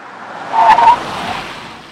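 Hard braking from a sporty car with front disc and rear drum brakes on a road test: rushing road noise swells into a brief high tyre squeal mid-clip, then settles back to a steady rumble.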